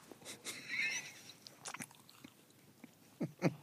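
Someone bites into a waffle and chews, giving faint, crisp crunches and soft chewing sounds, with a few sharper bites standing out.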